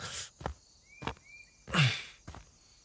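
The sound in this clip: Faint footsteps of a person walking a long road toward Morgantown: several soft, irregularly spaced scuffing steps over a quiet background.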